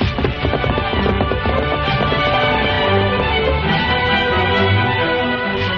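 Horse hooves as the Lone Ranger rides his horse Silver along a trail: a loud, rapid, rhythmic clatter of hoofbeats that runs steadily throughout.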